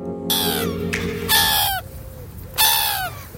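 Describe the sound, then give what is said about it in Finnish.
Seagulls cry out in three loud, harsh calls, each sliding downward in pitch, spaced apart with quieter gaps between them; a low steady hum sits underneath at the start. “lokit kraa”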